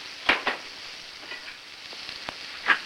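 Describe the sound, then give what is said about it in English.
An egg cracked into a hot frying pan gives a faint, steady sizzle broken by a few sharp clicks and taps. “Later, at the stove, he heats a frying pan, then goes to the refrigerator and brings out a bowl of eggs. He cracks one over the pan.”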